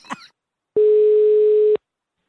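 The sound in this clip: A single steady telephone ringing tone of an outgoing call, an even mid-pitched buzz lasting about a second, comes after a brief snippet of voice.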